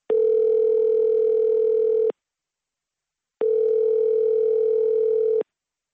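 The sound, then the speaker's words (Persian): A telephone ringback tone sounds while a call is being placed: two steady, even-pitched beeps, each about two seconds long, separated by a pause of just over a second, loud and alone on the line. “ما به وی زنگ زدیم و صحبت تلفنی را ثبت کردیم.”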